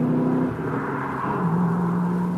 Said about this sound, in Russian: Машина резко сорвалась с места, подняв фонтан брызг, которые тут же смешались с каплями дождя.